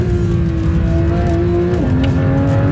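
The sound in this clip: Loud car engine revving during a fast drive up to a finish line, a steady droning roar that holds one pitch, then dips slightly lower near the end before settling, with no voices.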